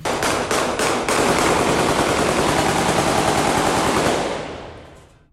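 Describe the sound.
Heavy gunfire shot into the air at a funeral forms a dense, loud, continuous crackle of overlapping rapid shots that fades out toward the end.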